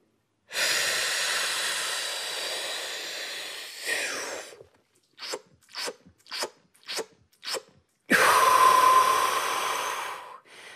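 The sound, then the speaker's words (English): A trained freediver takes deep breaths before a spirometer test: a long, steady inhale, then a quick series of short, sharp sips of air, and finally another long, forceful inhale, all heard alone without talk. “as a trained freediver and somebody who's, you know, really trying to blow the lid off that spirometer, I would take a breath that sounds like this.”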